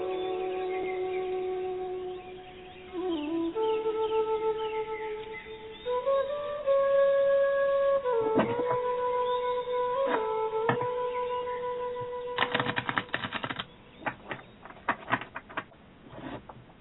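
Cards handled for a card reading: a few soft taps, then a quick burst of crisp riffling clicks, all over a steady, sustained tone in the background.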